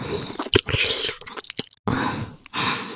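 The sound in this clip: Close, wet mouth sounds of nibbling and licking on an ear come in soft bursts of smacking and slurping, with short pauses and one brief complete silence partway through.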